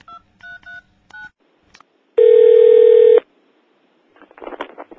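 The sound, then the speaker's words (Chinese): Touch-tone dialing on a telephone, several short, crisp beeps in an uneven rhythm, followed by a single loud steady tone lasting about a second, then silence and a burst of faint noise. “打电话又冇人听，好闷啊，唔得，打多次先。”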